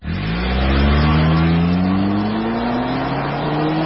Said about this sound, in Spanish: Los motores trabajan altísimas revoluciones por minuto.